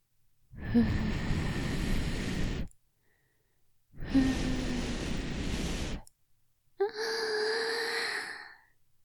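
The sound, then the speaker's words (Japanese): Gentle breaths of air blown into the ear, heard as three soft, hissing bursts of about two seconds each, separated by brief pauses. “じゃあ、まだまだふうふうしてあげるね。”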